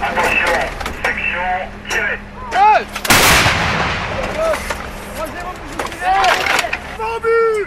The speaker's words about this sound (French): Les trois Césars font feu en même temps 12 obus en tout.